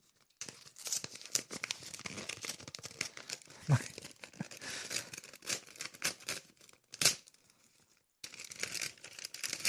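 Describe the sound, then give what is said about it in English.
A mailed paper envelope is torn open and its contents crinkled, giving many sharp tearing and rustling bursts of uneven rhythm, fairly faint overall, with one short silent pause before the crinkling resumes. “Either way, let's see what we got in this envelope.”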